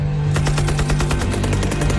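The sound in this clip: A rapid burst of machine-gun fire from a trench line in wartime, with loud, evenly spaced rounds rattling off in a quick steady rhythm for about two seconds and no voices.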